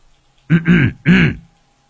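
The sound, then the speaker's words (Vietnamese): A man clears his throat loudly in two short, voiced, rasping bursts separated by a brief pause, with silence before and after. “Anh sợ có trộm, liền hắng giọng.”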